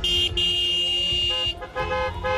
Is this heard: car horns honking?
yes